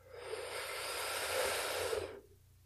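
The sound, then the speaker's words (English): A single long, deep breath during a guided breathing exercise, a steady airy rush lasting about two seconds before cutting off into silence. “So let's go ahead and take another deep breath in.”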